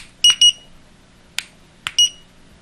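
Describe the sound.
A kitchen timer going off with short, high-pitched electronic beeps: a quick pair, then a pause broken by two sharp clicks, then one more beep.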